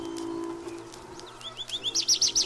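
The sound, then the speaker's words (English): Birds sing in spring, giving a quick run of bright, high chirps that repeat in a steady rhythm and grow louder, over a faint low hum. “The birds have been in full song. Woods and fields, gardens and shade trees resound with their music.”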